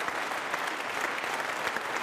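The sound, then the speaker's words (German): Audience applause at a live talk: a dense, steady wash of many hands clapping that holds at an even level for the whole stretch, with no single voice standing out. “Ihr könnt klatschen, ihr könnt immer klatschen, wenn ihr wollt.”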